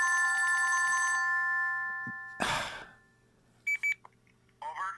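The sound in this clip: An incoming call's phone ringtone, a bright multi-tone ring lasting about a second before cutting off, followed by a breathy sigh and a few short electronic beeps, all fairly faint.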